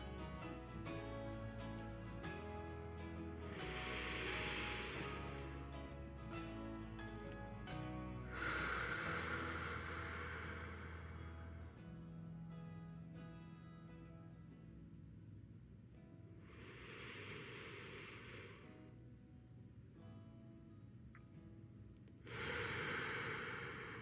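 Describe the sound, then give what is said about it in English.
Deep, slow breaths taken during a relaxation exercise, heard as a few long, airy breathing sounds separated by pauses over a soft, steady musical background. “Let's take three deep breaths as we relax our body.”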